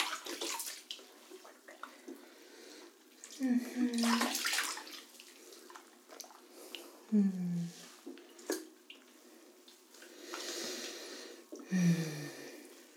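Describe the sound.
Water running in a bathtub as something is rinsed, a steady splashing wash with a few louder surges, under a woman's brief speech.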